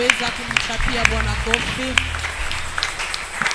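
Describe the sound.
A church audience claps and cheers in praise, with sharp claps falling on a steady beat about every half second. Raised voices carry over the clapping.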